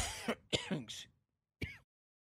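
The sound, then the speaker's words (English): Throat clearing from a man who just choked on a drink: several harsh, rasping bursts in quick succession, then a short silence and one final rough clear. “Excuse me. Choked up on a drink that I was having.”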